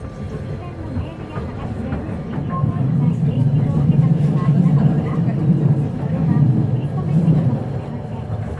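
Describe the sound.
A public transport vehicle departs from a stop, its low engine rumble swelling after a few seconds and staying heavy and steady, with indistinct voices underneath.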